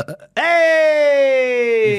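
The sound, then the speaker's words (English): A long, deliberate burp from a man with acid reflux, one low voiced belch that rings out for about a second and a half, its tone sliding gradually downward. “I was going to try and burp.”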